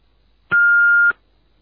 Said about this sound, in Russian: К сожалению, нас сейчас нет дома. Оставьте свое сообщение после сигнала.